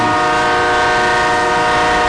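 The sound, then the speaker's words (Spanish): A driver's vehicle horn blares nonstop for about two seconds on a trip: a loud, dense, steady multi-note chord that never pauses or changes pitch. “Esa bocina me está dejando sordo. Sordo me está dejando.”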